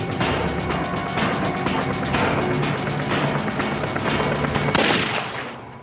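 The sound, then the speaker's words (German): A pistol gunshot in a German TV police crime drama, a 9x18 Makarov fired at a man leaving a house. Dense, rumbling noise runs throughout, then a sharp, loud bang cracks out near the end. “folgt sie ihm beim Verlassen des Hauses und erschießt ihn.”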